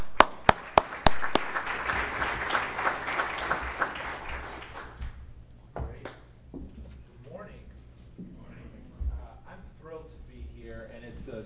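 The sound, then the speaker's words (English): Audience applause at a White House panel event honoring a College Promise team. A few sharp, louder claps stand out at the start, then a dense round of clapping fades over several seconds as people begin talking. “So can we just give Martha and the whole College Promise team a round of applause?”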